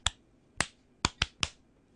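A person claps hands on request, trying to reach a set count. Five sharp, isolated claps come at uneven intervals: a single clap, a pause, then a quicker cluster. They stand out crisply against near silence, with no talk.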